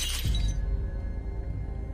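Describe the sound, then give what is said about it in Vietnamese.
A ceramic jar smashed hard on the ground gives one sharp shattering crash at the very start, then the sound fades into a low, droning background. “Sau đó chiếc hũ bị nó giơ lên cao rồi đập mạnh xuống đất.”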